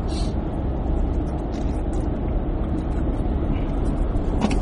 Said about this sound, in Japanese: 車めっちゃ多いね。